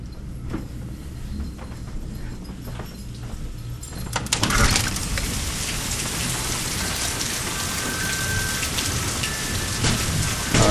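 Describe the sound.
Steady heavy rain from a thunderstorm moving southeast, with wind, heard around the house doors; a dense hiss that grows markedly louder and fuller partway through, then stays constant.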